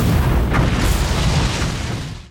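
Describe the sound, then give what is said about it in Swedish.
A rocket launch roar rumbles loudly and continuously, a broad, heavy blast of sound that slowly thins and then cuts off at the very end. “jag tror det var hans raketer vi hörde där i slutet.”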